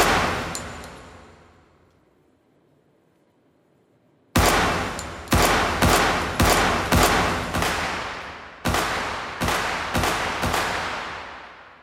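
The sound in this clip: Loud video-game gunfire opens with a burst of shots that rings out and fades to near silence. Many sharp, evenly spaced shots then follow in two rapid runs, each crack ringing briefly before the next.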